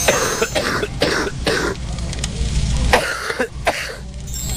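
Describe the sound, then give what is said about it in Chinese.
Deep, heavy, muffled coughing from chronic phlegm lodged in the spleen, a series of thick, rasping bursts with throaty, congested breaths between them, heard alone. “它这个咳的声音应该是更往里了哈， 咳声或者痰声相对比较深一点， 啊，比较重浊一点 啊。”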